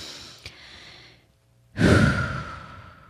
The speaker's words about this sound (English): We all just need to take some deep breaths. We all right now, I'm going to take a deep breath with you all.